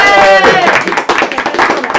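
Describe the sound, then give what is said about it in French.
A small group claps into headset microphones, making a brief, dense patter of many overlapping claps after a voice at the start. “Je pense qu'on peut même s'applaudir pour faire du bruit dans le casque.”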